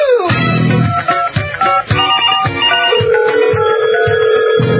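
Telephone ringing after a number is dialed: loud electronic ringing tones that shift for a few seconds, then settle into a steady repeating ring.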